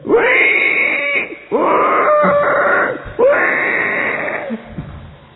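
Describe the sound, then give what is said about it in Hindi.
A pig squeals while its legs are tied: three long, loud, strained squeals with brief gaps between them, each wavering and dropping off at the end, with no talk. “सुअर को वो लोग पकड़ते हैं उसके हाथ पैर बांधते बेचारा चिल्लाता है सुअर”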